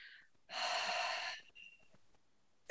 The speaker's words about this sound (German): Durch die Nase ein, tief in den Bauch, zu deiner Hand hin, die auf deinem Bauch liegt. Schieb quasi mit deiner Bauchdecke deine Hand nach vorne und beim Ausatmen durch den Mund